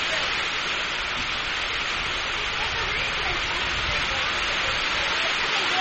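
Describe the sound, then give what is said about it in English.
Steady rain from a pop-up shower falls during an amateur baseball game: an even, unbroken hiss that holds at the same level throughout, with no distinct drops or pauses. “Just one of those pop-up showers that they said was going to happen. So they're talking about it in the rain.”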